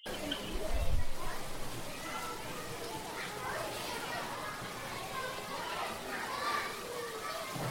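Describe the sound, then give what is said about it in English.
Children play outdoors, their overlapping chatter and shouts forming a steady, moderately loud background that continues throughout. “Well, some children still in the West Coast are still out playing. And some of you might even be in your bedrooms playing. But let's call you all in.”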